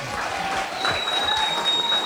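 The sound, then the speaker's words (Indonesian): Steady applause from an audience at a prize-giving ceremony for a judged competition, a dense patter of many hands that swells slightly toward the end. “Kita beri aplaus lagi ya.”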